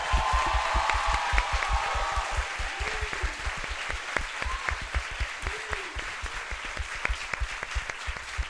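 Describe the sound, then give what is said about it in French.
Applause from a live audience begins as a full, dense wash of clapping. It gradually thins into scattered, distinct individual claps that grow sparser and quieter toward the end. “J'aimerais vraiment que vous fassiez énormément d'applaudissements pour Adrien”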